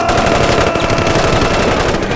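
Dense machine-gun fire rattles without a break as covering fire in a wartime drama, a loud and continuous stream of rapid shots.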